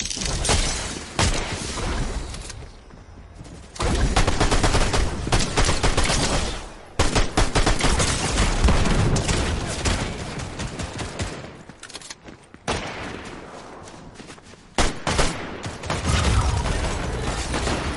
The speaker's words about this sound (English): My NPC was shooting the ground.